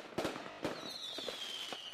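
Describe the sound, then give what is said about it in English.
Faint fireworks crackle from novelty firecrackers for the Fourth of July: a couple of sharp pops with smaller crackles between them and a thin, high whistling tone that slowly sinks. “Be the envy of your friends with Jesus on a cross firecrackers.”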